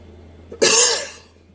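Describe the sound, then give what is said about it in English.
A single harsh, loud cough from someone with dust and fluid build-up in the lungs. A brief catch comes just before it, and the cough tails off with a raspy exhale. “this coughing is in part due to the dust, you know, but a lot of it's got to do with fluid build up in the lungs”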